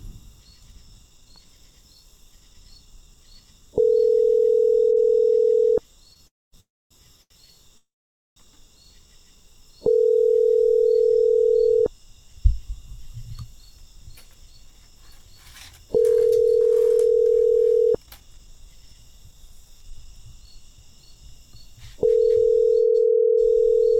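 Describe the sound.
Ringback tone of a telephone call ringing out: four steady, mid-pitched tones, each about two seconds long and evenly spaced, over a faint background hum from air conditioning.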